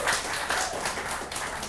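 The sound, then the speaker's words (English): Church audience clapping in a brief, dense patter of many hands, steady and moderately loud throughout. “you don't have to clap, you know, that's like, now his head is all big, and, you know, just say amen, right?”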